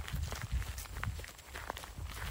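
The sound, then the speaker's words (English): Crunching footsteps walk steadily down a gravel road leading to a stone bridge at the Antietam battlefield, a quick, even run of gritty steps throughout. “I've come to Antietam to see it for myself, and I'm walking down a gravel road leading to one of those stone bridges”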